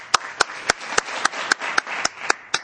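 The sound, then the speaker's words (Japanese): Audience applause comes as about ten sharp, evenly spaced claps in a steady rhythm, ringing out over a continuous hiss of scattered clapping. “皆さん拍手”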